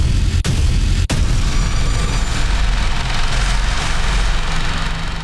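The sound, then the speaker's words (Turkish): A Panter howitzer fires during a live-fire military exercise at Polatlı, Ankara. Two sharp cracks come early over a loud, continuous low rumbling roar that lasts to the end. “Bu sese kulak verin. Burası Ankara, Polatlı ve tatbikatın adı ateş serbest ve karşınızda Panter obüsü.”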